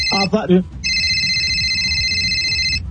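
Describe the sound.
Telephone ringing with an incoming call: after a brief voice, an electronic ringtone sounds as a steady, high, buzzing tone for about two seconds.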